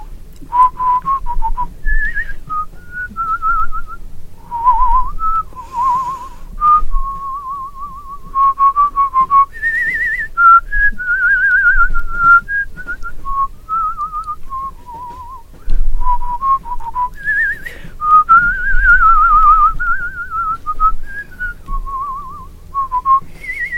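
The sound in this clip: A person whistles a long, lilting melody alone, a clear, loud tone that slides and trills between notes in several phrases separated by brief breaths.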